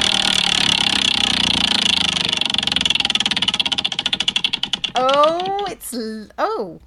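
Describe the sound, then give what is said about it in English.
A spinning prize wheel clatters as a rapid run of loud ticks that gradually spread out and slow until it stops, then voices talk briefly. “Alex, just let me spin the wheel, for heaven's sake. All right, go for it.”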